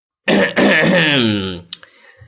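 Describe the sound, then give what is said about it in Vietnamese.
A man clears his throat in one long, rough, voiced rasp, trailing off into a brief faint click afterward. “Ông ta hắng giọng.”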